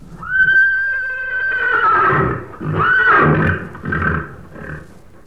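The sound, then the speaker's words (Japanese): A horse neighs with a long, loud, high whinny that wavers and falls, followed by shorter, rougher whinnies and snorts, heard alone. “あ、この声はなんだ？聞いたことのない変な声だにゃ。 馬なのだ。”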